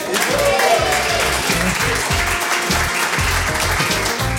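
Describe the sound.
Dense, steady audience applause welcomes a guest to a public conversation. It is loud and continuous from start to finish, a thick wash of many clapping hands with no pauses.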